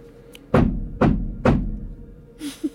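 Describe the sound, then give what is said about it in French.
Three heavy knocks answer during a séance in a Fox sisters spiritualism drama, evenly spaced dull thuds about half a second apart, each ringing briefly before the next. Faint scattered sounds follow after a pause. “Kate, refais ce que tu faisais. Monsieur Splitfoot, trois coups.”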